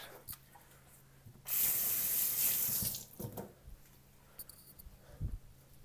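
Water runs from a tap while hands are washed. There is one steady gushing stream lasting just over a second, followed by quieter splashes and handling sounds.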